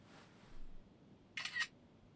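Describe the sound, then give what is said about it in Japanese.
Smartphone camera shutter firing as a photo is taken: a single quick, crisp click that stands out against a very quiet background. “ねえねえ、ちょっとスマホで写真撮って。”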